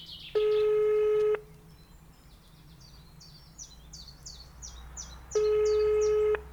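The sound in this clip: Ringback tone of an outgoing telephone call: two long, steady, buzzing tones about a second each, separated by a pause of roughly four seconds, with faint bird chirps in between.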